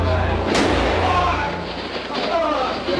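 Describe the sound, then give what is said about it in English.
A single sharp gunshot rings out as Lee Oswald is shot in the basement of Dallas Police Headquarters, one loud crack near the start, followed by a dense, noisy wash of crowd sound and voices. “He's been shot. Lee Oswald has been shot. There's a man with a gun. Absolute panic here in the basement of Dallas Police Headquarters.”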